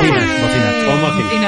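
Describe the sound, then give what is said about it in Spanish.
Air horns blare loudly and continuously through the whole clip, a dense, brassy, sustained tone with little change in level. “Bocinas.”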